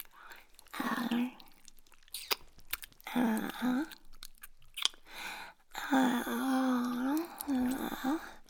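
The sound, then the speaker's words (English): Wet licking and mouth sounds during an intimate sexual moment, mixed with soft voiced sounds and moans that come in several bursts, gentle and fairly quiet throughout. “How about a little licking,”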